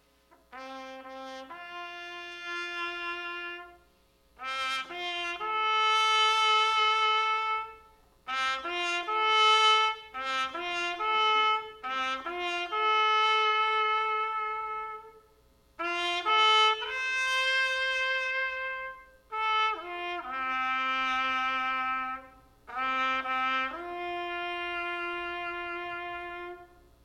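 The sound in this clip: A bugle sounds the call for day's end, also played at veterans' funerals, as slow phrases of long, held brass notes stepping between pitches. The phrases are separated by short pauses, and the bugle plays alone.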